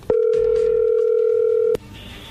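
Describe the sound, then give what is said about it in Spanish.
A single long, steady telephone tone sounds as a call is placed. It holds at an even level for about a second and a half, then cuts off abruptly into near quiet. “ahí se está marcando, ahí entró la llamada.”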